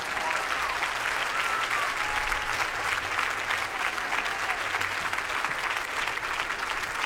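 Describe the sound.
Audience applause for performers at a show: dense, continuous clapping that stays loud and even throughout, with faint crowd noise mixed in.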